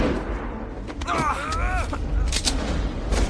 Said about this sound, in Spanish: Se dispara un tiro al techo.